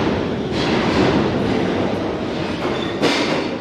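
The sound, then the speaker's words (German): New York subway train rumbling underground: a steady, loud roar with rattling and faint clicks of wheels on track, without talk. “Hier müssen die Menschen für einen Augenblick zur Ruhe kommen, warten, während das Donnern der Züge jedes Gespräch übertönt.”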